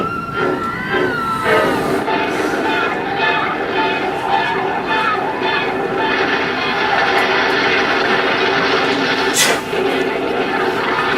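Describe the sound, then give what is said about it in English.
Roller coaster ride in a film trailer, a loud continuous rattling rail roar with sustained whistle-like tones over it and a sharp burst near the end. “Now, Universal plunges you into a mystery at the speed of sound. Roller coaster.”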